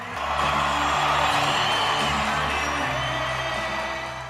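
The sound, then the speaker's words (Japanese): A stadium crowd roaring at a rugby league match as a South Sydney Rabbitohs player takes the field: a broad, steady cheer that swells in and holds, with sustained low tones running underneath. “彼がグラウンドに入るとスタジアムの観客は一斉に立ち上がり、熱気に包まれました。”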